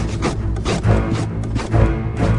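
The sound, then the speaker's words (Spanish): Scratching on a wooden door, heard as a series of rough, rhythmic scraping strokes with short pauses between them. “María escuchó desde allí, desde la cocina, una suerte de arañazos que daban a una puerta.”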